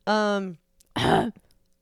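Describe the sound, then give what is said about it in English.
A person clears their throat twice: first a short, voiced, buzzing rumble, then after a brief pause a rougher, noisier rasp, both loud. “But yeah, I clear my throat like Hayla.”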